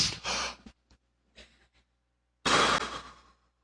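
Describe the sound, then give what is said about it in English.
An audience takes a deep breath together: a loud breathy rush of many people, a few faint scattered breaths, then a second, louder collective breath that trails off. “Take a deep breath right now. Everybody on the count of three.”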